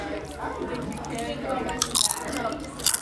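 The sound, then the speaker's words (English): Dorito chips crunching during close-up eating, with soft chewing and a few sharp, crisp bites standing out near the end, under and between speech. “Dorito ASMR.”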